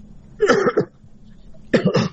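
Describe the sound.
Two hoarse coughs from a caller on a phone line, each a short burst of rough, raspy pulses, separated by a quiet pause of about a second.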